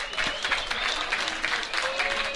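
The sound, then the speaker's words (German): Crowd applause rises from football stadium spectators as a player leaves the pitch: dense, steady clapping from many hands, sustained and fairly loud throughout with slight swells, no voices standing out above it. “Applaus für Fatmi Ferrati, der eine wirklich gute kämpferische Leistung heute wieder gezeigt hat.”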